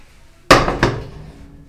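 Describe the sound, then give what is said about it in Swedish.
Two heavy metallic clunks as a large 25-litre pot is set down on a stove, the second following closely after the first, each ringing briefly before fading away. “Så, en stor kastrull behöver man. 25 liter. Tar och ställer den på spisen.”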